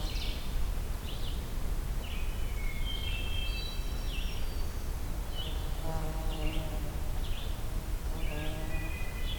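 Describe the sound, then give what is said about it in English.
Ovenbird song among woodland bird calls: short, bright chirpy phrases repeat at intervals over a steady background hiss, with other birds calling in between. “Oven bird.”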